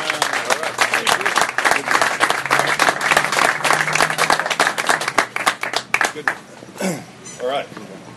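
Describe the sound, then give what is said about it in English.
An audience gives a burst of applause for a group of participants: dense, loud clapping that holds steady, then thins out and fades near the end. “So let's hear it for these wonderful men who are taking a chance.”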